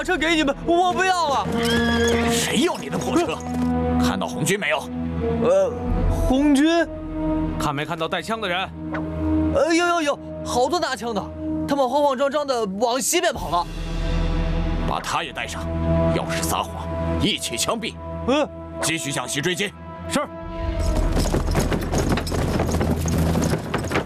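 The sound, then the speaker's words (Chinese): Horses pulling a carriage clip-clop in steady hoofbeats, with occasional whinnies, under urgent talking and shouting voices throughout. “追上去，拦住那辆马车”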